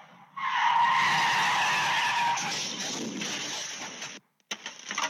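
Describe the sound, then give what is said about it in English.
Tires screech loudly as a car skids sideways after clipping two parked cars, recorded on a Ring camera. The long squeal gradually fades, cuts out briefly, then gives way to a few faint scraping sounds. “A suspected drunk driver clips two parked cars before skidding sideways,”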